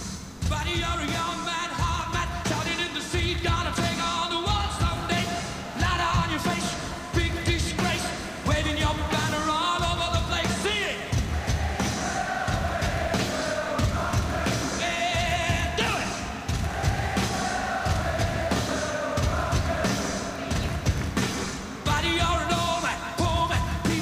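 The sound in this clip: A stadium crowd cheers, yells and sings along at a rock concert at Wembley, a loud, continuous roar mixed with the band's music throughout.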